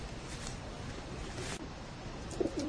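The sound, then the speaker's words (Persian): Pigeons in a cage give a soft, low burst of cooing near the end, over a steady background hiss. “حالا هر دوشون کنار کبوتران. اونا اون طرف توری قفس و اینا این طرف.”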